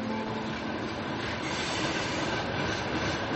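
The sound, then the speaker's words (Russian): A train rumbles along a railway in a continuous, loud roar of wheels and carriages that stays steady throughout, with no voices. “И мне нравится, что здесь железная дорога, потому что я вырос у железной дороги, потому что гремит поезд, это звуки моего детства.”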